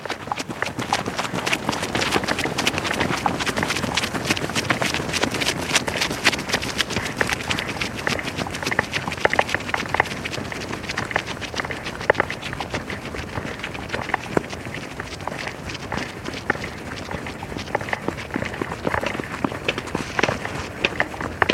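Running footsteps of two people taking off together down a path: quick, continuous strikes that keep a steady pace for about twenty seconds.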